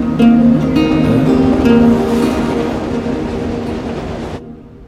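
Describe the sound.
A New York subway train heads toward Roosevelt Island and Queens with a loud, steady rumble and a sustained tonal whine. The noise stays strong and continuous, then the higher tones cut out abruptly near the end.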